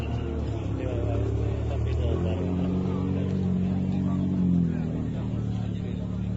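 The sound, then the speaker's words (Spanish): Engines rumble at an early-morning gathering of hundreds of tuned cars on an industrial estate. The low, steady drone swells briefly into a higher, sustained revving tone midway, with no sharp breaks. “Sonido de esa concentración, supuestamente de carreras de vehículos tuneados.”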